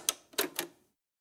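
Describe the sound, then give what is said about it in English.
Cassette tape mechanism sounds, used as a show's logo effect: three sharp mechanical clacks in quick succession, the last two closer together, then silence. “what is that sound effect at the beginning of the clip and the end of the clip? Well, trying to be on theme, that is the sound of a cassette tape. You may not even know what that is, but it's our logo.”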